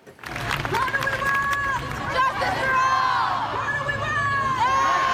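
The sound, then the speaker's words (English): A crowd of protesters chants and cheers at a September rally over the possible end of the DACA program for undocumented youth. Many voices shout and call out together in loud, overlapping bursts that hold fairly steady. “That's the sound of a September protest over the possible end of the DACA program. It was recorded by the Chicago Patch.”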